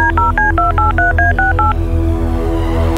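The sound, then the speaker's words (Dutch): Touch-tone beeps as a telephone number is dialed: a rapid series of short two-tone beeps over a steady low hum, stopping partway through and leaving the hum alone. “Dan ga ik een keer eens bellen, hè.”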